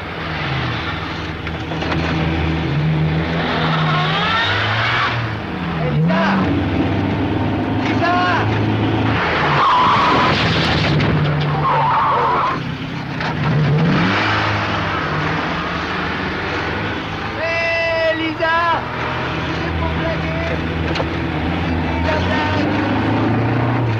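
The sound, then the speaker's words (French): A car engine roars loudly and continuously in a radio drama scene where a car is driven over a body three times. The heavy mechanical drone stays steady throughout, with voices mixed in. “Trois fois, avec une rage déchaînée, Lisa a fait rouler sa voiture sur le corps de Bob.”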